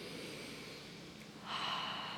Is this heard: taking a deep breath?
yes